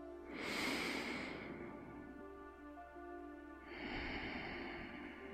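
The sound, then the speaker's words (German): Two deep breaths taken during a guided relaxation exercise, each a long, soft, airy rush of air, separated by a quiet pause. “Und dann schicke jetzt noch zwei tiefe Atemzüge in dein Herzraum.”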